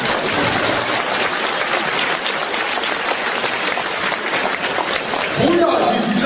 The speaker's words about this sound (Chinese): 鼓掌